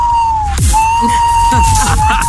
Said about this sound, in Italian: Sembrava più un sonar. Sirena. I sonar dei sommergibili